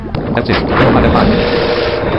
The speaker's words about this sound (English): Okay, that didn't do it. So let's do another torpedo here.